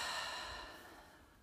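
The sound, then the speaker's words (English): A deep breath during a gratitude practice, heard as a soft, airy breathy rush that slowly fades away over about a second and a half, with no other sound. “And when you're ready, take a deep breath. And out.”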